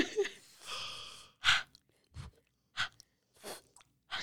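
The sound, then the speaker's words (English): Someone breathes out during a cooling yoga breathing exercise, making several soft, airy exhales and breathy puffs in an uneven sequence. They are quiet, with short silences between them. “it's going to be a cooling sensation. And then let it go and breathe out.”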